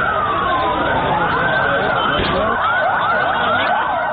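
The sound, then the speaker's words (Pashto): Ambulance sirens wail after a powerful bomb blast in a crowded park's parking area in Lahore, carrying away the dead and injured; several rising and falling siren tones overlap and weave continuously at steady loudness. “دا د هغو امبولانسونو غږ دی چې په لاهور کې له قوي چاودنې وروسته یې د پیښې له ځایه مړي او ټپیان انتقالول.”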